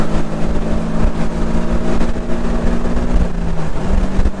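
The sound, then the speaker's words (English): Engine of a stock turbocharged sports car under hard acceleration: a loud, steady low drone with a constant hum, mixed with rumbling wind noise throughout. “It's stock. I don't know about that. It doesn't feel stock. This is what the turbo does now? 11 turbos don't drive like that.”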